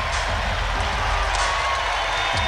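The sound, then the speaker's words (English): Crowd noise at a Pistons–76ers basketball game: a loud, continuous roar of applause mixed with cheering, steady throughout with no pauses. “Crowd gives him a hand.”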